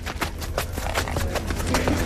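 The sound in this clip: Horse hooves clip-clopping during a veterinary inspection at an equestrian event: a series of sharp knocks in an uneven walking rhythm over a low rumbling background, with no talk.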